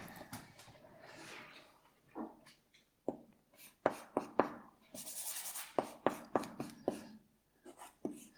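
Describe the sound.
Handwriting during a mathematics lecture: many scratchy, irregular strokes and short taps in uneven bursts, some sharp and some soft, with brief pauses between runs of writing.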